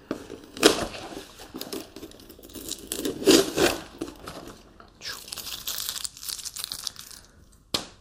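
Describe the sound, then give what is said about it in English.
Tape is peeled off a laminated poster in soft, crinkly bursts of tearing and rustling, sometimes stronger and sometimes lighter, with no talk over it. “Let me show you some of these. Let me take off the tape so it's easy.”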